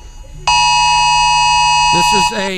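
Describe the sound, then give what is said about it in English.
An emergency alert tone, loud, steady and buzzing, is held for about two seconds in a comedy bit. A voice is heard briefly before it, and talk starts just as it cuts off. “This is an emergency alert. Do not huff through your masks.”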